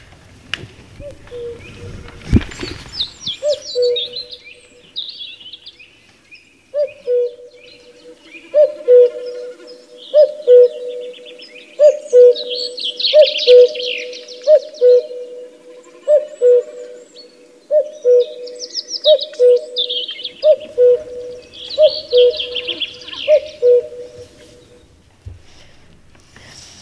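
A male bird sings a long, steady series of low, evenly spaced hooting notes, more than a dozen in a row. Fainter, higher chirps flicker above them.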